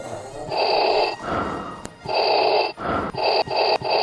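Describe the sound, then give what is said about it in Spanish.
A person's heavy breathing inside a space suit, many loud, rasping breaths in and out in a steady rhythm, with a few brief clicks between them. “¡El traje espacial! ¡Mirá cómo respiro adentro de esto! A ver, escuchá cómo respiro.”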